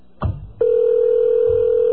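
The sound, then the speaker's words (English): A telephone line tone heard from the caller's side while a call to a Chicago phone booth goes unanswered: a short click and thump, then one continuous, steady mid-pitched tone that holds loudly to the end. “We can't get one person to answer a phone booth in Chicago?”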